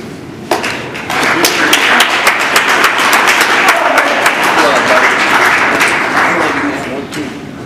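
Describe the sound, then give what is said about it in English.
Audience at a speakers' event breaks into loud applause and cheering after a talk, with voices mixed in. The applause starts abruptly, holds dense and steady for several seconds, then gradually fades away. “Cheer one more time for Kim.”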